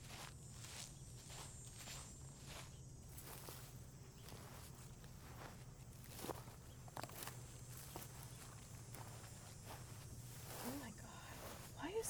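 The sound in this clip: Faint footsteps walking through an overgrown area: soft, regular steps keep an even pace over a constant low hum, with light rustling between them.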